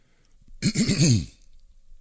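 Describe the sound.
A single harsh throat clearing with a rough, pulsing voiced rasp lasting under a second, loud and heard alone.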